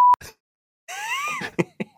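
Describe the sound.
A short censor beep: a steady mid-pitched tone that cuts off abruptly. A pause follows, then talking.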